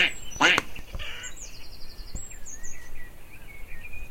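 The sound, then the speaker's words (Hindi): A duck on a farm quacks, giving a few loud, nasal quacks in a short run, with fainter chirping calls continuing behind them. “बतख ने जवाब दिया,”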